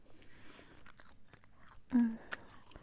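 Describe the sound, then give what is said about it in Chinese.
Someone chews beef jerky that is damp with saliva. Faint, soft crunches and wet chewing clicks come throughout, with one louder bite near the end followed by a sharp click. “上面还沾着弟弟的口水呢，湿漉漉的。吃了两块牛肉干之后，就感觉瞬间好饱啊！”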